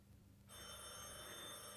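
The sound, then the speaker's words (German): A telephone bell rings, starting suddenly after a short quiet moment and then sounding as a continuous bright metallic ringing, fairly faint and alone. “Telefon.”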